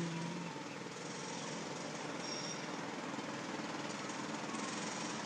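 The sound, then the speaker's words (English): Construction work outside produces a dense, unbroken clatter of machinery that resembles jackhammering. The noise stays loud and steady for the whole stretch without pauses, and no one speaks. “This is the sound of the people working on construction.”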